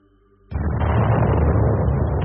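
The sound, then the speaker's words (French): Motorized artillery cannon fire at a fir-forest edge: after a faint low hum, a sudden loud blast breaks in at about half a second and becomes a heavy, sustained roaring rumble that lasts to the end. “l'artillerie motorisée crache son feu. Le bruit du canon rebondit de sapin en sapin.”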